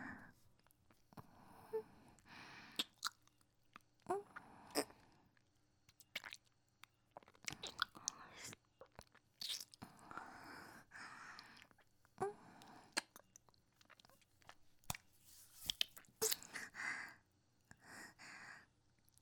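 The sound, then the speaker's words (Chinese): Wet chewing and biting on fingers in an ASMR roleplay: many soft, crunchy mouth bursts in an irregular rhythm, with faint breaths between them. “学长的手指也好好吃啊，果然跟我想象中的一样美味。我还想吃。”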